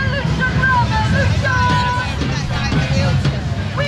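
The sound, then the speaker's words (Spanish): Street ambience in London during two simultaneous protest marches, one pro-Palestinian and one far-right: a continuous wash of crowd babble and many voices over steady traffic-like street noise, with no clear pauses. “Ese es el ambiente hace unos minutos en Londres.”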